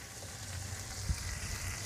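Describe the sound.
Food sizzling in a frying pan, with freshly rinsed pieces starting to spit in the hot fat. A steady, moderate crackling hiss runs throughout, broken by one brief sharp pop near the middle, and no one speaks.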